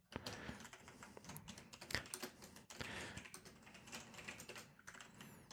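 Rapid typing on a computer keyboard: many crisp keystroke clicks in an irregular, busy rhythm with a few louder strikes, heard alone without voices.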